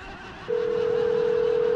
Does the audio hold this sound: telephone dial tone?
yes